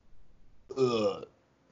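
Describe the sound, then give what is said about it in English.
A single loud burp lasting about half a second stands alone, with a rough, voiced quality, preceded by faint low rustling. “You burp?”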